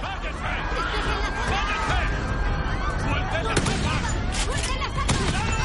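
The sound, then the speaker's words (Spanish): Gunfire from armed robbers shooting at police in an action thriller, a few sharp cracks within a dense, chaotic roar of noise and voices. “Disparan a los policías.”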